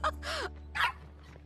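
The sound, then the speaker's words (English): Two excited puppies, a husky and a poodle, give a few short, high yips and barks in quick bursts over a steady low hum. “Two puppies burst outside, a husky and a poodle.”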